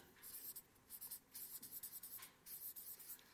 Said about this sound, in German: Ich weiß, ihr könnt es eh nicht lesen, was ich hier vorne schreibe, aber es ist trotzdem cool, oder?